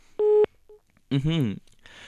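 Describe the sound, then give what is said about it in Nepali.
A telephone call to a radio phone-in drops with a short, steady electronic tone, then a faint brief beep, then a voice sounding briefly. “सम्पर्क विच्छेद भयो केही छैन फेरि फेरि try गर्नुहोस् अवश्य पनि तपाईँको फोन लाग्नेछ”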